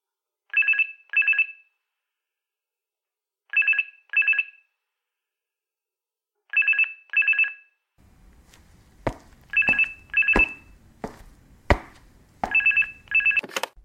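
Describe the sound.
An electronic telephone rings as a call goes out to a private detective's office, sounding in five evenly spaced double bursts of high, warbling tone. From midway, sharp knocks and a low background rumble join the rings.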